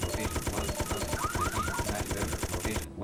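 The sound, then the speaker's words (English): Gunfire in a video game comes as many rapid, evenly spaced shots in a steady mechanical rhythm that keeps up throughout and breaks off just before the end. “Slowing down and firing.”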